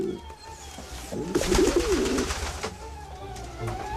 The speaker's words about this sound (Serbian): Golubovi su spori, ali pouzdani. Iš, iš, boga na ptičurino, iš!